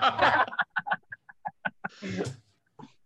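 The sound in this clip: A voice imitates chickens clucking during a tabletop role-playing game: a loud squawking burst, then a rapid string of many short, clipped clucks, ending in a longer squawk.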